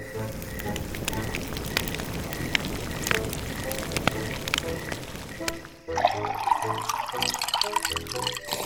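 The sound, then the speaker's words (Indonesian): Water heats to a boil for coffee with a steady crackling, bubbling hiss throughout, growing busier and more gurgling in the final few seconds. “Kau tinggal bikin air panas aja. Dah, rebuskanlah air itu.”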